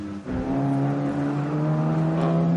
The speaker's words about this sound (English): So the course vehicle is actually ducking away from back into an access road there, and more course vehicles going out as they've been doing drop-offs.